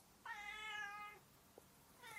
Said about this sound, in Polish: To siedź tu, ale nie miaucz.